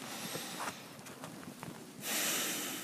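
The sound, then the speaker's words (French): Breathing in through the nose during a guided relaxation exercise: a soft, airy nasal hiss that swells into a louder, fuller inhale at the end. “Et puis une troisième, inspire avec le nez.”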